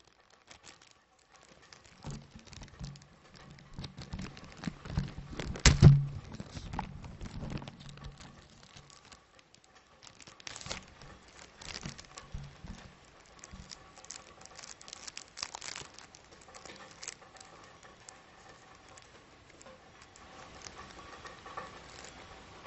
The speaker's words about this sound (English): Let me unwrap the cigar one second.